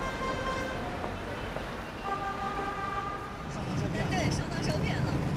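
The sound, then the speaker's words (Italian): Road noise from a car driving on Beijing's Fifth Ring Road: a steady traffic rumble with a few horn tones sounding over it, while a voice talks throughout. “Sto guidando sulla quinta tangenziale, che qui si chiama Quinto Anello.”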